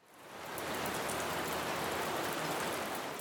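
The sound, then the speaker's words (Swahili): Heavy rain pours down in a dense, continuous hiss that swells in the first half second and then holds steady, with no voices. “Sasa kabla ya kusikia zaidi kuhusu hali ya hapa, hebu tuisikilize nguvu ya mvua inavyonyesha.”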